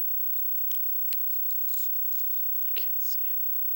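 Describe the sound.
A Hollywood Video rental sticker is peeled off a VHS videotape, giving quiet tearing and scraping with a few sharp crackly spikes. Soft voices murmur underneath.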